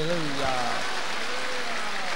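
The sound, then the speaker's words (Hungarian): A church audience applauds with dense, steady clapping that holds at an even level throughout, with a voice briefly heard over the opening moments. “Az Úrnak adjuk a dicsőséget, tapsoljunk rendesen.”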